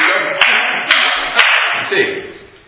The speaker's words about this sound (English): Okay, when I clap, if we're increasing tempo